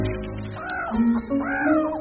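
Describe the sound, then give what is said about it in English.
A drongo imitating a meerkat's warning call: two loud, harsh, nasal arched calls, each rising then falling in pitch, separated by a brief pause. “Of course, it's the drongo. He's learnt to mimic the meerkat's own warning call.”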